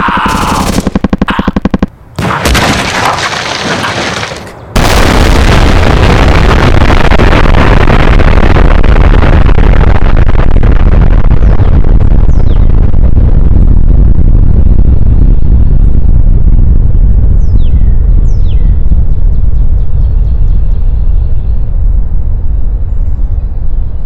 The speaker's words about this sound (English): He literally exploded in front of us.